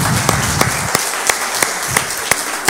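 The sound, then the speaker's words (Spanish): A church audience applauds during a Sunday service, a dense, steady wash of many hands clapping, with a few sharper individual claps standing out at intervals throughout. “Así que bueno, agradecemos al Señor, sí, le damos un aplauso al Señor.”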